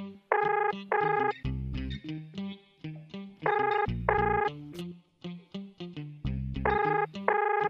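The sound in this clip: A phone rings while a call is placed to someone's mother. The ringtone is an electronic melody that repeats in a steady cycle of punchy tonal bursts over a bass pulse.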